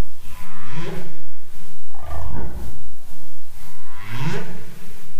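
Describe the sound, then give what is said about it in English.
A single male humpback whale sings in late November in Seymour Canal off Admiralty Island, giving a loud series of low, droning moans and rumbles with rising, sweeping whoops between them. “This is the sound of a single male humpback singing in late November in Seymour Canal off Admiralty Island.”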